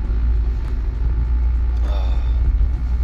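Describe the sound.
A car driving on a road that is only half smoothly paved makes a steady low rumble throughout, with a brief voice partway through.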